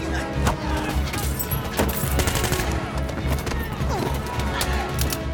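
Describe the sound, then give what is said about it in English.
Rapid gunfire erupts in a chaotic melee as a man grabs guns and blasts his way through a brawl with bikers, the shots dense, loud and continuous over a busy, clattering background. “He grabs guns and blasts his way through the melee.”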